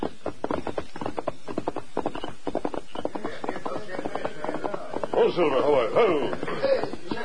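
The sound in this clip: A horse's hooves clip-clop in a steady, rapid rhythm of many crisp beats as a rider rides off alone, with a brief breathy snort-like sound toward the end.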